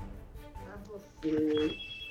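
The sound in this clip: Telephone ringing as a dropped call is redialled: one short electronic ring burst of paired steady tones sounds midway, preceded by indistinct voice-like murmur and followed by a fainter high tone.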